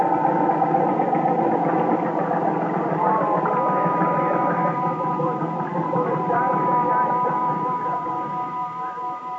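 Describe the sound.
A Ferris wheel's gasoline motor, its gas tank dosed with pink lemonade, runs with a steady, rough mid-pitched drone throughout, easing slightly in loudness toward the end.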